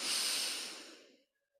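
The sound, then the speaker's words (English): A deep breath drawn in during a closing relaxation moment, hand over heart: one airy, breathy hiss that swells at once and tapers away over about a second, then near silence. “take your right hand, put it over your heart, take in a breath,”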